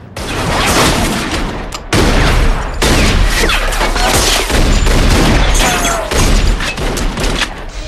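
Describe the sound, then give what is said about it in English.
Townsfolk and a gang trade heavy gunfire in a gun battle: many loud, overlapping shots and booming bursts come in dense waves with brief breaks between them. “The gun battle between the townsfolk and Varric and his gang continues.”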